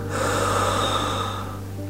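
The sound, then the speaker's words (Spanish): A deep breath drawn in and released during a guided morning meditation: a steady, airy rush lasting just under two seconds over a low, constant hum. “Inhala conmigo y suelta.”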